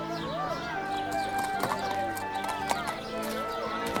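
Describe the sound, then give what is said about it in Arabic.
Hooves of an Arabian horse at a market clip-clop in a steady series of light knocks, with a voice talking over them. “هذه يا سيدي أفضل الخيول العربية، اسألوا في السوق كله عن بضاعة عرفان”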